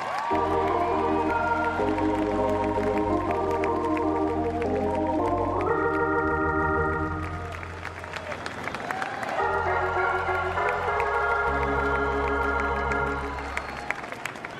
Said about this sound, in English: Let's go ahead and welcome a couple of living legends. Crane mentioned them both, but now we're going to see them. First of all, a big hand for Ryne Sandberg.